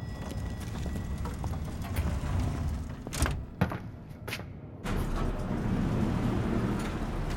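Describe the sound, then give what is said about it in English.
Elevator machinery and sliding doors produce a steady, low rumbling hum, broken midway by a cluster of a few clunks and thuds as the doors move before the hum resumes. “Elevator 4.”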